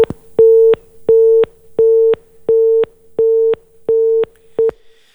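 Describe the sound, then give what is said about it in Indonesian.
After a call with a weather forecaster drops, a telephone busy tone sounds as seven steady, mid-pitched beeps in an even on-off rhythm, the last one cut short. “mohon maaf sambungan kita terputus dengan Pak Angga Dirta selaku prakirawan BMKG. Kita akan coba hubungi kembali pendengar ya.”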